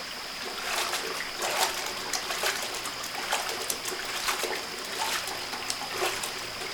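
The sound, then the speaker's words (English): River water trickling and splashing while clothes are washed at a riverbank, a steady bright rush broken by many small splatters and drips of fairly even loudness, with no talk. “Here, let's wash our clothes right here, down by the riverbank.”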